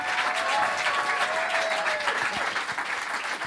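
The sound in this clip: Audience applause welcomes an improviser, teacher and artist onto the stage at a live show. Dense, steady clapping holds throughout and eases slightly toward the end.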